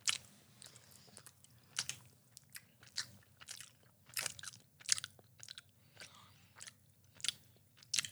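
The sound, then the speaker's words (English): Someone chews a small, soft almond cake: many quiet, moist bites and chews in an irregular rhythm, with no talking. “Small cake is what I'm guessing this is. Three, two, one. It's a small cake.”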